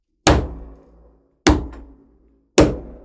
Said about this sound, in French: Oh, trois coups, c'est quoi ça?